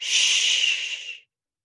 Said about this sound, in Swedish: sätter vi pekfingret mot munnen. Andas in och andas ut och säger